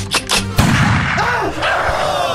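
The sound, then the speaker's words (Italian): A single loud gunshot cracks sharply and leaves a lingering, noisy rumble. Two softer, shorter knocks come just before it. “Ha sparato a un nostro cameraman.”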